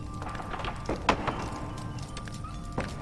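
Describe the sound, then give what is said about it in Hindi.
Horses moving about in a stable. Scattered hoof knocks and thuds stand out over a steady, noisy background. “क्या ये घोड़ों का अस्तबल है?”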